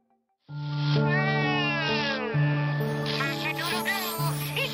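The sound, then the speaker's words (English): Warbling, mewing electronic cries from a 1998 Furby, a zoomorphic toy: a loud, continuous robotic trill with a wavering, quavering voice over a steady buzzy drone that holds throughout. “If you recognize this noise, it may provoke in you a sense of nostalgic joy or an unsettling discomfort. These are the cries of a 1998 edition of Furby, a zoomorphic electronic toy”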